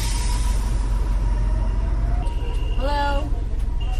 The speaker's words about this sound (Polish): No to może autobus.